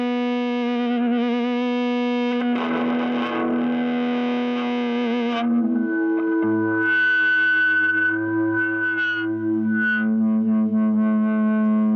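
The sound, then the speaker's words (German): Distorted electric guitar through a small amplifier and speaker cabinet: loud strummed chords with heavy effects, then sustained, ringing single notes and bends over a low held tone, continuous throughout with no talking. “E-Gitarre, Verstärker haben wir hier und eine Box. Dann lass doch mal hören.”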